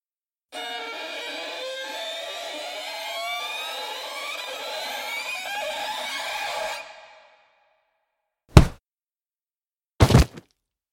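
Two sharp whacks from a large rock striking a person ring out as sudden, loud, brief impacts. They come after a long sustained harmonic tone ends and a stretch of silence.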